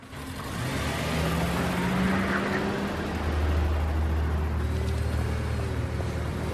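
A car drives off, its engine note climbing as it accelerates into a steady, moderately loud rumble. The car has a dented driver's door.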